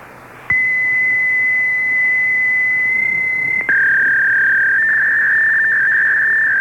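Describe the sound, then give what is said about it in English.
A fax machine answering tone on a phone line: a loud, steady, high electronic tone held for about three seconds, then a brief break and a second steady tone, slightly lower, with no voices. “What is that noise? What is that sound? Oh, that's their fax number, huh?”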